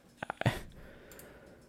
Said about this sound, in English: I'm trying to click on this article. Okay, my computer doesn't want to load.